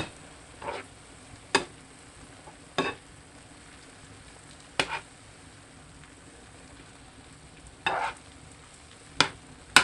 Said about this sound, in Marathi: मीठ अतिशय कमी वापरायचे आहे या भाजीला, छोटा अर्धा चमचा। वरखाली व्यवस्थित परतून घेऊ।